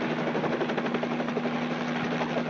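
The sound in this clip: A helicopter sound effect: a steady, rhythmic rotor chop over a constant droning engine hum, moderately loud and continuous, with no talk during it.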